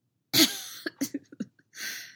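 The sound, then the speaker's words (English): A voice imitates a coughing fit by an injured man. A harsh opening cough is followed by a run of short, choppy coughs and a final longer rasping cough. “Anakin laughed, which triggered another fit of coughing.”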